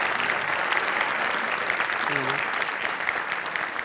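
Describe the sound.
Loud crowd clamour from a large audience, a dense, steady roar of many voices mixed with applause-like noise that holds at an even level throughout.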